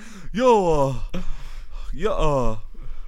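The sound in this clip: A voice acts out heavy panting, as if out of breath after sprinting across a school: a few loud, voiced gasps and groaning breaths in quick succession, rising and falling in pitch.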